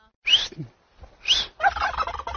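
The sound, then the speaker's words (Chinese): Loud gobbling from a farm turkey of a heavy breed said to reach about 8 kilograms, sounding in a few sharp, trilling bursts separated by short pauses, with no talk. “这是我们的火鸡，这个鸡还有特色，这个我给你听它的叫声啊。”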